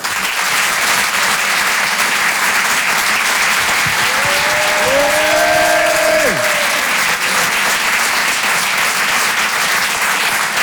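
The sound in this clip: Sustained applause from a comedy club audience at the Apollo welcoming a comedian to the stage, a loud, dense, steady roar of many hands clapping that holds evenly from start to finish.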